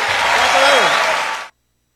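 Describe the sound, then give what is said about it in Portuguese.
On a radio show, applause bursts out for a performer as a dense, loud wash of clapping that is cut off abruptly after about a second and a half, leaving silence. “fuerte aplauso, Mario Bofill.”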